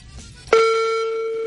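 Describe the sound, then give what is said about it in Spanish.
Ringback tone of an outgoing telephone call: a steady, pitched electronic tone starts abruptly after a moment of low background noise and holds evenly to the end. “Vamos a ver, primero que escuche el timbre.”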